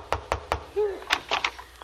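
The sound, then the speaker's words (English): Three sharp knocks rap on a door in quick succession, followed by a short voice and a few faint taps. “Go ahead, knock on the door.”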